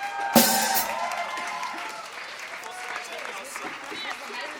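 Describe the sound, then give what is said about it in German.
Applause from an audience at a live event breaks out suddenly with a loud burst of clapping. It then holds as a dense, steady wash that eases slightly over several seconds. “Einen Riesenapplaus für den Hermann hinten.”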